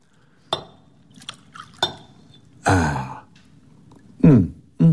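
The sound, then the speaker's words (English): Glass clinks as a bottle of brandy is handled and poured into a glass: two sharp chinks early on, then softer glassy taps, with short vocal sounds such as a sigh in between. “behind the fire guard, you'll find a bottle of brandy hidden away by Sir Isaac Newton. Certainly, Herr Inspector. May I pour you one? Indeed, you may.”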